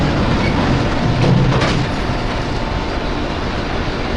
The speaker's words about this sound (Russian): Поезд уезжает.